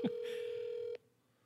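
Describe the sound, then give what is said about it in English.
A phone call rings out on the line: a single steady mid-pitched ringback tone holds for just under a second after a faint click, then cuts off into quiet. “All right, let's see if Greg picks up. I haven't called Greg in about 3 years.”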